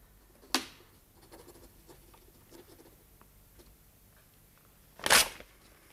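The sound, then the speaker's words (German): A pen scratches faintly and unevenly on paper through most of the stretch. Two louder, brief rustles stand out, one near the start and one near the end. “Sitzt und schreibt. Oh, schreibt, wenn ihr mich nicht böse machen wollt.”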